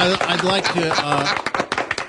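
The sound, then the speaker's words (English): Hand clapping from a small group of people, with irregular sharp claps mixed in with overlapping voices. “How about a round of applause for all the stations? We applaud.”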